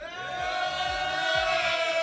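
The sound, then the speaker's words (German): A party crowd cheering at a birthday radio party, their voices merging into a sustained, slightly rising unison roar with low rhythmic thumps beneath. “Also, ihr hört es im Hintergrund, da ist schon ordentlich Stimmung.”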